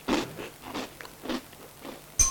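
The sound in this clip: Bites and chews into a super crunchy biscuit, eaten plain. Several faint, dry crunches repeat in a steady rhythm, with no talk, and a sharper snap comes at the end.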